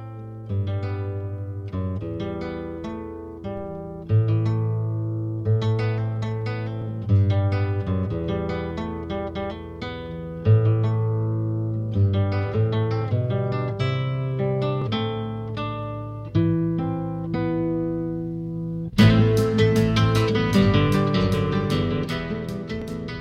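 Instrumental acoustic guitar piece played fingerstyle, with a plucked melody and chords that restart in a few phrases, each note ringing and decaying. Near the end a brighter, fuller section with more instruments joins in.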